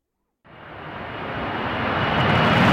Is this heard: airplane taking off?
yes